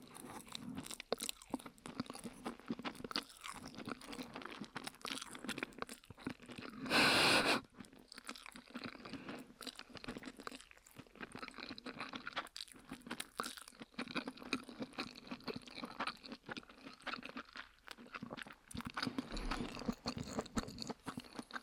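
Plain, unseasoned yakisoba noodles being chewed, with many soft, wet crunches and bites in an irregular, steady rhythm and one louder crunch partway through.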